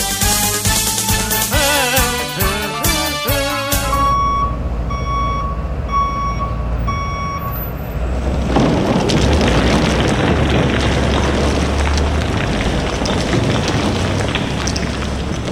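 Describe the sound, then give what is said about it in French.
Reversing beeps from a ten-wheel truck sound as a steady series of high beeps, then give way to a long, loud, rumbling roar of gravel being dumped. “pourquoi il y a un 10 roues dans le stationnement? Il y a plein de garnottes dans notre bureau.”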